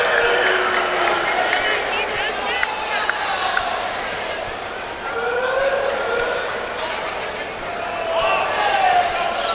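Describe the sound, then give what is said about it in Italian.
A basketball bouncing on the court during an Italian professional game, its quick thuds partly masked by crowd noise and talk. “Robinson che palleggia”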